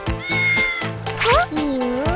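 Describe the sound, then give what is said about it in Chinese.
A beluga whale imitates a cat's meow: a few clear, tonal meow-like calls, the later ones sliding upward in pitch, loud and alone. “你会学猫叫。”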